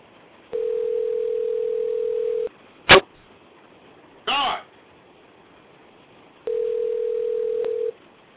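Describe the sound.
Ringback tone of an unanswered telephone call: two long, steady, evenly pitched tones of about two seconds each, separated by a quiet gap that holds a couple of brief clicks or rustles.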